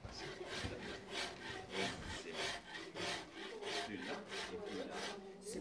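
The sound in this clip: Rhythmic rasping of a file on wood as a luthier shapes a gut-strung plucked string instrument. Bright, scratchy back-and-forth strokes repeat many times at a steady pace, with no voices.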